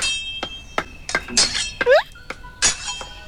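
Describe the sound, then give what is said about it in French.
A blacksmith's hammer strikes hot iron in an irregular series of sharp metallic clinks. Several strikes ring briefly, with uneven gaps between blows. “Le forgeron tape le fer chaud avec son marteau.”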